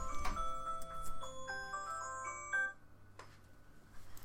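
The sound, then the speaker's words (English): A phone alarm goes off with a quick run of bright electronic melody tones and short chiming notes, then cuts off, leaving quiet background. “Sorry. That was my alarm.”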